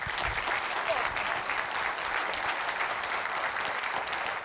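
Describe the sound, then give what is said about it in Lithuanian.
Applause from a studio audience welcoming a guest sociolinguist onto a talk show, an even, continuous wash of many hands clapping, unbroken from start to finish. “Pasitikime e, plojimais.”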